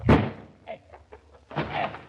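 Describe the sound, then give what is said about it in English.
A door secured with a spring lock being forced in: one heavy slamming thud at the start, then a few lighter knocks and a rougher, louder burst of impact noise near the end. “All right, stand back there, Mrs. Schultz. There's nothing for it but to bust in the door.”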